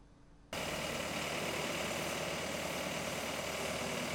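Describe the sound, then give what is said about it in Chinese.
A tank-like drainage robot runs two pumps that move water at about 1,100 cubic metres per hour. Its engine breaks in suddenly after a brief quiet moment, then holds a loud, steady droning rumble with a constant vibration. “做一个排涝的演示，靠那两个泵在抽水，每小时可以达到1100方，它可以连续抽排10到13个小时。 眼前这个外形像坦克的就是排涝机器人，”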